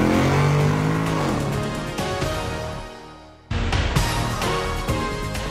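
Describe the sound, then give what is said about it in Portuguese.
A car engine revs as the car shifts into first gear and accelerates, a loud sustained roar that gradually fades and drops away briefly, then bursts back loud and strong. “Sérgio, engata a primeira e acelera.”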